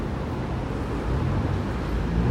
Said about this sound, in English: Right now, by the way, I'm sure you hear traffic and people and everything. I am on 59th Street.